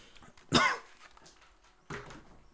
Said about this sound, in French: Pardon, je tousse aussi.